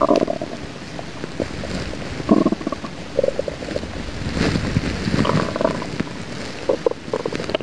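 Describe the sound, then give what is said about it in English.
An angry stomach rumbles with irregular low gurgles and squelchy bursts, rising and falling in loudness across several seconds with no talk over it. “That's a stomach. It's not duty. Angry stomach.”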